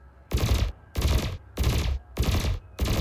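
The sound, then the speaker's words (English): Burst lasers fire in a space combat video game: five evenly spaced bursts of crackling, rattling blasts, each lasting under half a second and separated by short gaps. “Up next on our list of killing machines are burst lasers. They fire intermittently, but consistently, with 3 blasts for every shot.”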